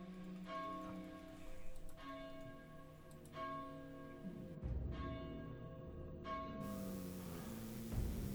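Church bells ring out across a town in a slow series of about five strikes. Each strike gives a bright, resonant tone whose layered overtones hum on and overlap with the next, with no talk.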